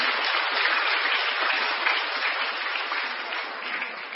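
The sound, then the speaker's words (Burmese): An audience applauds at the close of a talk with a continuous wash of many hands clapping. It holds steady and full for about four seconds and eases off only slightly. “ကျေးဇူးတင်ပါတယ်အားလုံးလက်ခုပ်လေးတည်ပေးကြပါ”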